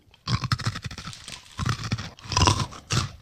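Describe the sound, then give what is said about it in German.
Crunchy, garlic-flavoured fried rice cracker pieces are chewed in a series of brittle crunches, coming in irregular bursts with short gaps and no talk. “Schön knusprig. Okay, also mit der klassischen Reiswaffel hat das nichts mehr zu tun. Das sind wahrscheinlich so Reiswaffelbrocken”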